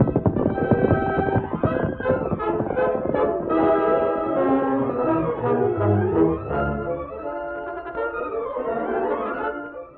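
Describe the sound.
Horses gallop away, among them the Lone Ranger's horse Victor, as hoofbeat effects in a 1947 radio drama. Rapid clattering hoofs are clearest in the opening seconds, then orchestral music swells over them and fades out.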